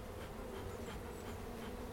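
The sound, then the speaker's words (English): Honeybees buzz busily at the mouth of a hive in North Dublin, a faint, dense, continuous hum of many insects without pauses. “You can see now there's plenty of action there at the mouth of this hive, so that's a good sign.”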